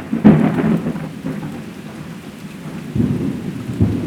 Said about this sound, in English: You can almost hear the rain coming.